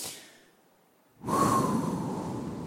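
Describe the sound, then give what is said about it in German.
Deep breathing in and out, performed in a children's story about a doctor listening to a little bumblebee's chest: a soft breath fades into a pause, then a long, loud, airy breath begins abruptly and continues to the end. “Sie muss die Arme heben und tief ein- und ausatmen.”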